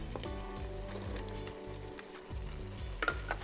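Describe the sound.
Steady sizzling as carrots go into a hot pan for a Brazilian plantain moqueca, the frying hiss continuous and fairly even throughout, with no talk over it.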